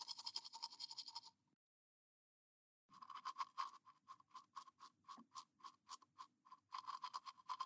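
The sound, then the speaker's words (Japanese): A toothbrush scrubs teeth in quick, rhythmic scratchy strokes, stops for a short stretch of silence, then resumes with many brisk back-and-forth strokes at an even pace. “あなた以外の歯を磨くつもりはないですけどね。私が歯を磨くのはあなただけ。特別です。”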